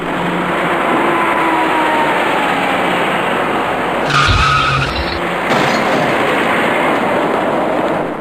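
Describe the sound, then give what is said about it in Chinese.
Tires skid as a dark SUV approaches and turns right at a street intersection, a loud, continuous roar of tire and road noise with a brief, harsher burst midway. “您注意看一辆开过来的深色越野车，”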